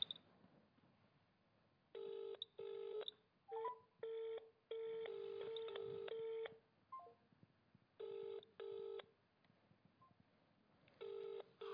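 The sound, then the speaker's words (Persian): Telephone dialing and ringing while placing a call: faint clusters of short electronic tone bursts separated by quiet gaps, in a stop-start pattern. “خب اون گرفت، ببینیم جواب میده یا نه.”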